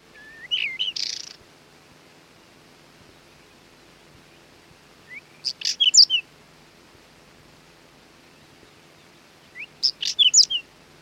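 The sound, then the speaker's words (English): A whinchat sings three short, scratchy warbling phrases separated by long pauses. The bright chirps and trills carry over a faint background hiss. “The windchat is a summer visitor to UK heathlands, moorlands and open meadows.”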